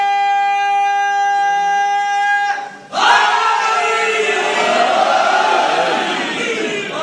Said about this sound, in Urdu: اب جب نعرہ لگانا چاہتے ہیں, بھرپور نعرہ لگائیں